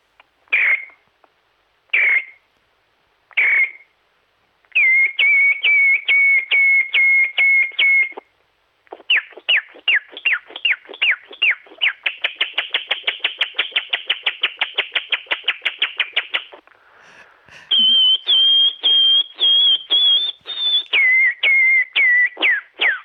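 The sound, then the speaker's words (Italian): A person whistles an imitation of a nightingale singing at night: a few separate high notes open the song, then rapid repeated trills and fast chirping bursts, ending in sustained bright whistled phrases, loud and clear throughout. “ti saluto con un canto di un usignolo di notte”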